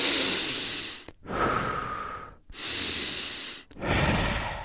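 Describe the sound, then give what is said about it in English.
Deep, slow cleansing breaths taken while sitting upright in meditation: four long, airy breaths in a row, each separated by a brief silent gap, loud and clear with no talking. “Close your eyes and take a few deep cleansing breaths.”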